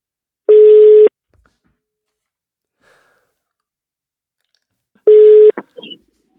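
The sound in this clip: Two ringback tones sound while a telephone call is being placed. Each is a buzzy, steady beep about half a second long, separated by roughly four seconds of near silence, and a few faint small noises follow the second tone.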